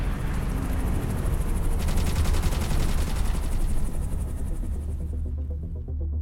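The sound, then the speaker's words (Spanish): Rapid automatic gunfire from an audio drama sound effect, a loud dense stream of shots rattling on for about five seconds over a low hum, then thinning out. “¡Ah! ¡Nos disparan! ¡Cúbrete!”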